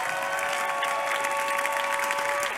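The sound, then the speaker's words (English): Church audience clapping as an offering: steady, dense applause with a sustained keyboard tone underneath and no talk. “Give God a clap offering.”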